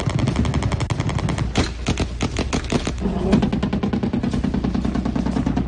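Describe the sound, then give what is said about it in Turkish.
Rapid automatic gunfire rings out at the national intelligence agency compound in Ankara during an attack involving fire from helicopters. Loud, dense bursts run continuously with no break and no voices. “Ankara'nın birçok noktasında olduğu gibi MİT yerleşkesinde de silah sesleri yükseldi.”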